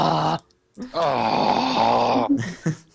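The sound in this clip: A played groan sound effect: a long, loud, voiced moan lasting over a second, sagging slightly in pitch, framed by short vocal bursts before and after.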